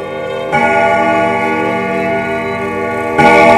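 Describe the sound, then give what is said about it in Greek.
A clock bell strikes the hour at ten at night, sounding two loud, resonant strikes about three seconds apart. Each strike leaves a long, rich ringing tone that sustains between them, with no voices. “Δευτέρα βράδυ, όταν το ρολόι χτυπάει 10,”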